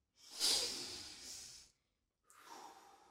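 A deep breath drawn in, hissing and breathy, swells quickly, then tapers over about a second and a half; after a short silence a second, softer breath follows. No one speaks.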